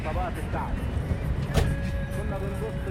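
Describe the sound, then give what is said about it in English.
A bus driving through the city streets of Alexandria, giving a steady engine and road rumble with some rattling, and brief voices near the start. “I would advise anyone that drives in Alexandria doesn't go fast inside Alexandria. I drive my bus here”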